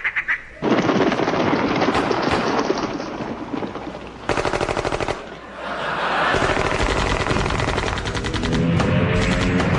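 Rapid volleys of gunfire at a grouse shooting party: many loud shots crackle in dense, overlapping bursts with brief lulls between them, and there is no talk.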